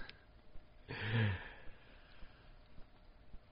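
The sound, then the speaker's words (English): One deep breath, a breathy rush of air lasting about half a second, rising out of near silence and fading back into quiet. “Okay, maybe I should take a breath.”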